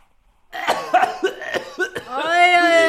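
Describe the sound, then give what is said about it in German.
A few short, rough coughs from a person with a cough, followed by a drawn-out voiced sound; the bursts come quickly one after another at moderate loudness. “Sie haben ja auch Husten.”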